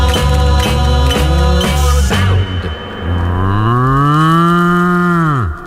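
A bull's bellow in a novelty dance record: rhythmic music beats at the start, then a long, deep lowing moan that climbs in pitch, holds, and sinks again before cutting off.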